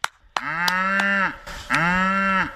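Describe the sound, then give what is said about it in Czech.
Cows and a calf low on a farm as hay is readied for feeding: two long, loud, deep moos separated by a short pause, with faint clicks and knocks in between. “Teďko potřebujeme ještě nakrmit krávy. Tak seno připravené. Pojď malá, pojď. Už běží, není to bík? Zatím běží krávy a telota.”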